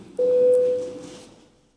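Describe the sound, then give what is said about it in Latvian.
A single electronic voting bell tone in the Latvian parliament, calling members to vote. It starts abruptly, holds steady for about a second, then fades out. No one speaks. “Lūdzu zvanu”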